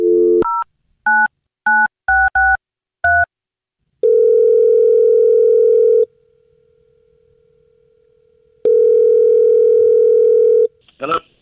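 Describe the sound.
A telephone call being placed: a quick series of keypad dialing tones, then two long, steady ringback tones separated by a silent gap as the call rings out.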